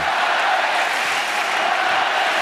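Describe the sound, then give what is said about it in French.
A tennis crowd at Roland-Garros reacts at match point, producing a steady, dense wash of murmuring and noise with no sharp bursts. “Balle de match en faveur d'Hugo Gaston face à Gaël Monfils. Gaël Monfils est au service. Écoutez le public.”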